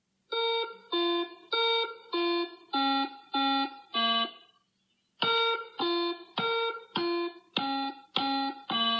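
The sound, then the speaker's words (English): Electronic tones from a Simon memory game play the same tune twice, each run of seven bright beeps at varying pitches. A short pause separates the runs, and the second run has sharp clicks of key presses at the start of each tone. “It's Simon, isn't it? Yeah, that's right. What got me about this one is the same exact tune, but the second time you can hear key presses, and the first time you can't.”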